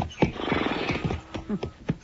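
Horses neigh and snort at a frontier wagon camp in a Western scene: a throaty whinny, then a few short, sharp snorts and shuffles near the end.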